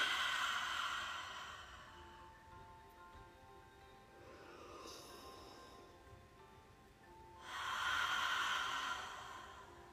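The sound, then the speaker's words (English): Slow, deliberate breathing: in through the nose and out through the mouth. A few soft, breathy rushes swell and fade, the last one fullest, alone with no talk. “Slowing it down intentional inhale through the nose and exhale through the mouth.”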